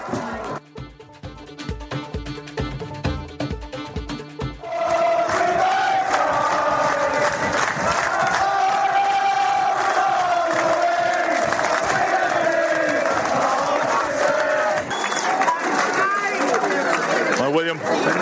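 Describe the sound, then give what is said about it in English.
Supporters chanting and cheering at an interprovincial stadium match, a loud, continuous massed chant with sustained voices that swells in after a few seconds of rhythmic pounding at the start. “No offence to the other spectators in the ground, but that's where the real noise and passion comes from. Well, we're dropping little sound clips in here, so here's that sound.”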